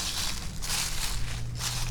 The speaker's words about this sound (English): But I'm walking to the edge of the creek, and the creek is full of leaves.